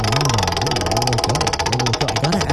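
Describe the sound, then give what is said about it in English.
A prize wheel being given a hearty spin, its pointer ticking in a rapid, steady run of sharp clicks that continues throughout, over a low wavering tone. “Let's give the wheel a spin. I will give it a nice hearty spin here to get us started.”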